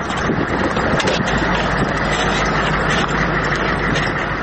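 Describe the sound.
A car engine drones on the way toward Marja district, a loud, steady, unbroken rumble mixed with a windy hiss, with no voices over it.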